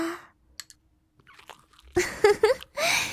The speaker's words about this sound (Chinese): 来，吃点青菜。还有这个蒸肉，味道也很不错。官人，张嘴，啊！